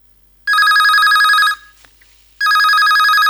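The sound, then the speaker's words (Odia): A telephone rings for an incoming call, two long, loud electronic trilling rings separated by a short pause, with no talk over them. “ତେବେ ଆସନ୍ତୁ, ଆଉ ଡେରି ନକରି ନେଇଯିବ ଆମର ପ୍ରଥମ phone call.”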